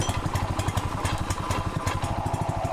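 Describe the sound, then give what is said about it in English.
A small engine on a portable wildfire water pump, used to draw water from a swimming pool, runs steadily with a fast, even, chugging throb and a clattery mechanical texture. “These pumps are made for wildfires, but in the case municipal water goes out, they're teaching neighbors how to get water from their pools. He turns on the pump,”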